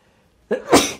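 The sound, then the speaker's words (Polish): A single deliberate human sneeze, made on cue: a short sharp intake followed by a loud, breathy burst that fades quickly, with no talk around it. “Mówiłem, że będę kichał i kichnąłem.”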